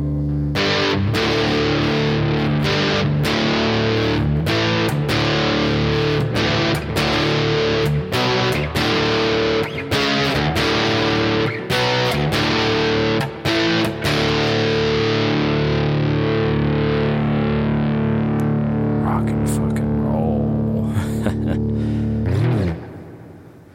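Drop-tuned electric guitar played through heavy distortion, with loud, thick chords and many sharp picked attacks over sustained low ringing notes, continuing steadily before cutting off at the end.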